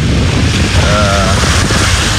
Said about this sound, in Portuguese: Olha só a quantidade de água. A cratera que tá se abrindo aqui, ó. Nossa. E mais aqui, ó, brotando água.